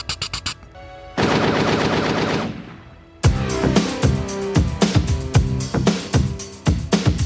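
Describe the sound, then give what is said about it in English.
Guns fire in an action film scene, starting with a short rattling burst, then a sustained dense volley, followed by many loud, sharp shots in uneven rapid succession. “And you hear guns going off, going.”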